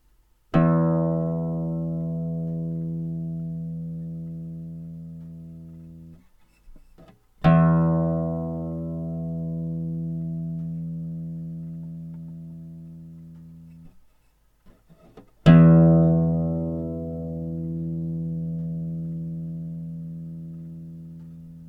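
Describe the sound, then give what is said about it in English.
The open low E sixth string of a guitar is plucked three times, each note ringing out and slowly fading before the next pluck. “Here is the sound of the open strings, starting with the sixth string E.”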